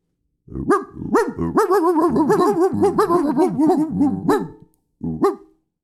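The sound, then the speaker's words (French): A human voice imitates a barking dog, with a long, loud run of many rapid, pitched yelping barks, followed by one final bark after a short pause. “on termine sur quelques aboiements”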